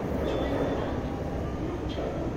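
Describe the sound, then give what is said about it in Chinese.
Subway train arriving at a station: a low, steady rail rumble with a dense noisy hiss holds at an even level throughout the short clip. “六乘为终点的列车即将进站。”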